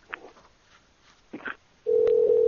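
Telephone call being placed to a restaurant: after a few short, faint sounds, a loud, steady single-pitch line tone starts and holds unbroken to the end.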